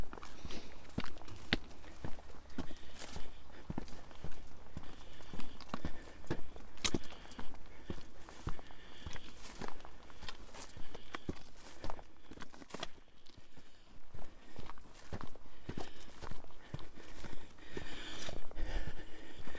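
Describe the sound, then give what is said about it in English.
Footsteps walking along an overgrown path above a farm: a steady, continuous rhythm of many soft steps through vegetation, kept at a fairly low level for the whole stretch, with no voices. “Walking along an overgrown path above Goosemoor Farm.”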